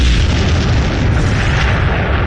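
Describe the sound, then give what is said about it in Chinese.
A satchel charge blowing up an enemy bunker in wartime combat makes a loud, dense roaring rumble that holds steady from start to end, with no voices over it. “随着一声巨响，炸药包摧毁了碉堡，敌人的机枪也停止了扫射。”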